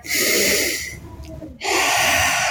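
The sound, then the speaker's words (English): Breathing in and out during a seated leg-stretching exercise: a loud, breathy rush of air that drops to a quieter stretch partway through, then swells again just as strongly. “Let's take one breath here.”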